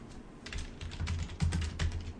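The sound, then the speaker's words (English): Fingers type a search on a computer keyboard, producing a quick, irregular run of fairly soft clicking keystrokes with no voices. “I'm Googling it, yeah. Yeah, just Google trail crest”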